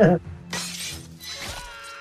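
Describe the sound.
A glass bottle smashed by Jason in the film Friday the 13th Part VI: Jason Lives: a sharp crash spreading into a bright, sustained shattering spray, with voices talking over it.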